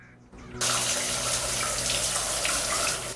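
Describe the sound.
Shower water in a bathroom bursts on abruptly after a brief quiet moment, then pours as a loud, continuous splashing hiss that runs steadily without a break.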